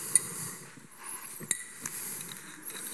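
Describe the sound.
A glass wine bottle is handled, giving a few light clinks and taps over a steady soft hiss. The knocks are brief and faint, with the sharpest one near the start.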